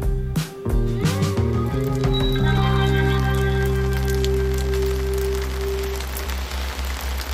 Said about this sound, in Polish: Deszcz pada. Deszcz pada. Drzewa chwieją się za oknem.